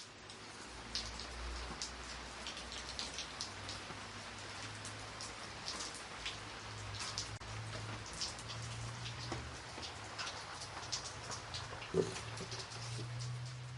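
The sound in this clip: Heavy afternoon rain from a sudden downpour, a steady, even patter of drops on surfaces that continues without a break. It stays faint throughout, with no voices.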